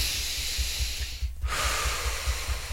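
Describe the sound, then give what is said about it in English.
A big deep breath taken during an Emotional Freedom Technique session, heard as two long, airy, hissing breath sounds split by a brief pause, fairly loud and alone. “Big deep breath.”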